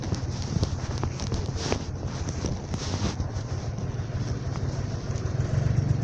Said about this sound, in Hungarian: Állj, na. Jön a taxi.